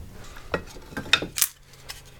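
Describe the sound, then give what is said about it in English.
Metallic clinks and clanks as an old wood stove with a big crack in its side is handled, a few sharp knocks scattered over a quiet background. “This is my uncle's old wood stove. I got it from him for free. It's got a big crack in the side of it.”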